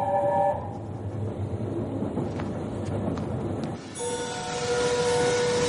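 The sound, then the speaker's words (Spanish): A train pulls into a station at night with a steady rolling rumble and a few faint clicks. Near the end, a sustained high tonal sound rises over the noise. No voices are heard. “Ya de noche el tren llega a su destino.”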